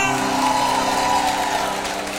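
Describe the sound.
Applause rolls on steadily and densely from start to finish, a broad hiss of many hands clapping together with no break or clear rise or fall.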